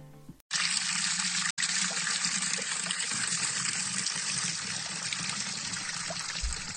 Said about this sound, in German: Was ihr hier hört, ist das Wasser aus der Quelle des Marienbrunnens.